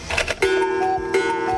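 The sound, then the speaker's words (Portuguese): Cuckoo clock sounding the hour: a few brief clicks, then steady, sustained tonal notes ringing out clearly at moderate loudness. “O Cuco tá aí? O Cuco tá aqui.”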